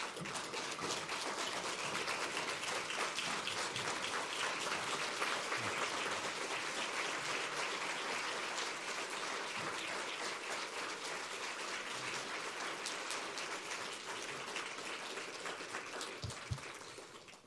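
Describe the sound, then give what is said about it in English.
A standing ovation for a conference panel: a dense, continuous crowd of clapping that stays loud and even for the whole stretch. “I think my esteemed panelists deserve a standing ovation for this powerful, powerful session.”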